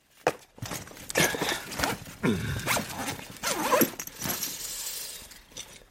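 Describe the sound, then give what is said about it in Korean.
Zipper pulled closed on a bulging backpack stuffed with a jacket, books and a notebook, heard as several loud rasping strokes with rustling between them. “이미 불룩한 배낭에 쑤셔넣고 지퍼를 닫는다.”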